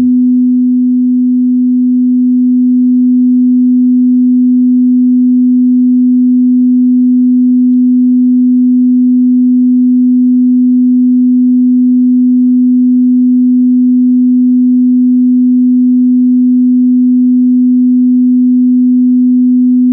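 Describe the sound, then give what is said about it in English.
A pure 250 hertz sine wave tone hums as one steady, unbroken low note at constant loudness for twenty seconds, with nothing else heard. “So tune in to this frequency and see how it feels. 250 hertz, tone along.”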